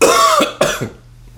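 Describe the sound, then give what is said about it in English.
A person coughs twice: two loud, raspy bursts with a short pause between them, then quiet. “I'll cough.”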